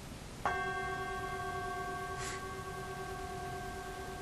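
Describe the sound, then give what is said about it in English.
A bell is struck once, giving a sharp onset followed by a long, pure, steady ring of several clear tones that sustains and fades only slightly over the next four seconds, quiet and alone. “if I strike this bell,”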